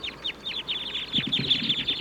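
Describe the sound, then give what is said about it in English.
A wild flock of birds calls from the treetops with many short, high chirps repeated in a steady, quick rhythm, loud and continuous throughout. “So recording, the wild birds in the treetops are calling now.”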